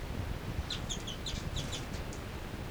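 Bird calls: many short, high chirps come in quick bursts, faint over a soft background hiss.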